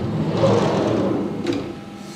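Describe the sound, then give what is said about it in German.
Steady mechanical whirring and clatter from a bio-ink printing line in a university experiment hall, where tablet-sized plates called shuttles travel around in a circle. The drone stays loud and continuous throughout. “In der Experimentierhalle steht eine Druckstraße. Tablettgroße Platten, die Shuttles, fahren hier im Kreis.”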